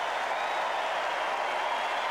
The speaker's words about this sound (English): As he gets up and leaves the court, a huge ovation for Novak Djokovic.